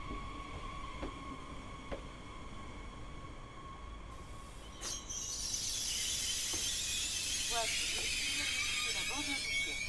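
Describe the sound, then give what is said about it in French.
TER Hauts-de-France regional train from Paris-Nord to Boulogne-Ville passing through Étaples-Le Touquet station without stopping. A low hum gives way to a loud, broad rushing roar partway through, with high metallic squeals layered on top. “TER Hauts-de-France en provenance de Paris-Nord et à destination de Boulogne-Ville, départ 13h10, entrera en gare, voie 1. Il le fera sans arrêt.”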